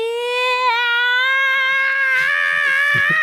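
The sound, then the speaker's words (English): A ghostly, haunting wail rings out as a single loud, sustained tone that wavers slightly and edges upward in pitch, with a few low soft thumps and rustles coming in during its second half. “you hear this ghastly, ghostly, must be evil, definitely a haunting wail”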